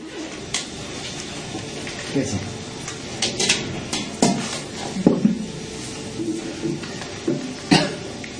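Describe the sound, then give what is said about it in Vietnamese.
Boiling water poured over fresh ginger, giving a hissing, splashing trickle with uneven bursts and small knocks that come and go over several seconds. “Tiếp theo cho ít nước sôi vào đây. Gừng tươi được thấm nước sôi.”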